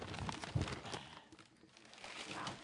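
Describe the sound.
Faint crinkling and tearing of wrapping paper as a tightly taped gift is opened. Irregular soft rustles and crackles come in uneven bursts.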